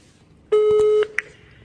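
A telephone ringback tone from a call that goes unanswered: one long, steady mid-pitched tone, then a short beep and the start of another.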